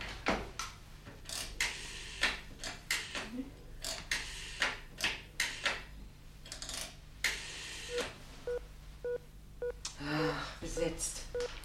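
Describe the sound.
A telephone number being dialed: a quick run of sharp clicks and taps at uneven intervals, followed by a few short tonal beeps near the end.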